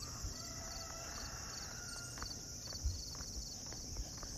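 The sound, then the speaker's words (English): Footsteps of a runner on a rocky road, faint and rhythmic, growing more distinct over the second half against a steady buzz of insects. “Got a runner coming towards me as I walk on what's known as Rocky Road.”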